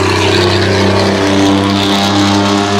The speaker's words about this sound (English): You'd think it'd be some badass. It's just like a white truck. Yeah. So damn loud.